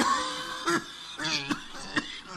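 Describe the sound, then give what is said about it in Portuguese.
Coughing from someone suffering a flu-like cold: a few short, hoarse bursts mixed with voiced, groaning throat sounds between them. “E essa tosse”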